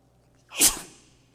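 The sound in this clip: A single sharp sneeze bursts out suddenly, then trails off quickly.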